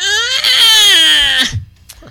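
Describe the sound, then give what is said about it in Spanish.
A man's voice imitates a baby crying, producing one sustained, high, strained wail that sinks slightly in pitch before breaking off, followed by faint breathy noises. “Y el güey grita como un bebé. Así.”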